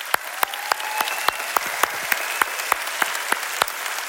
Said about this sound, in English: Hey, let's give the Lord a big hand today.